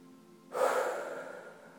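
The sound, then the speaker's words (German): A deep breath is drawn in during a guided relaxation exercise: one long, airy inhale that swells suddenly, then slowly fades over about a second, alone against quiet background hiss. “bei 3 nehmen Sie einen tiefen Atemzug”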